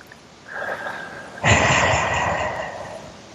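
A long, deep breath drawn in during a relaxation tapping exercise, beginning as a soft, quiet inhale, then swelling suddenly into a loud, airy rush that slowly tapers off.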